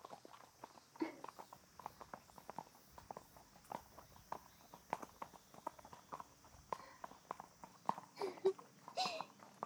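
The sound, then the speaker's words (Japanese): A horse's hooves clip-clopping during a ride through a forest, many soft, steady footfalls in an even walking rhythm, quiet throughout with faint creaks and rustles between the steps. “どう？森の中での乗馬は。”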